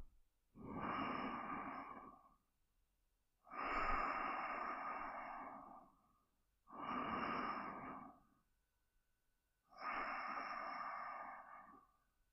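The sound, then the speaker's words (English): Four long, deep breaths flow in and out at a slow, even pace, each an airy rush of about two seconds separated by quiet pauses, fairly faint and with no talk. “I'm just going to take some deep breaths.”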